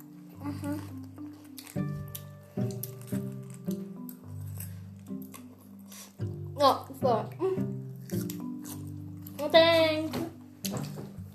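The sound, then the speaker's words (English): Crisp crunching of lettuce for ASMR, close and quiet, with many sharp wet snaps and squishy bites scattered between stretches of talking. “Wait, a quick ASMR with lettuce. Can be quiet.”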